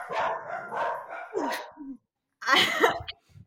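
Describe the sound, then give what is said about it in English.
Two dogs barking, a few loud, rough barks and yips in quick bursts, broken by a short silence before a final outburst. “interruption brought to you by my dogs, Cass and Charlie.”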